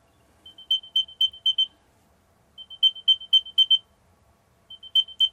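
A new-generation Apple AirTag sounds its locating alert: three bursts of rapid, shrill, high-pitched chirps, each group building from faint pips to loud ones, separated by short silences.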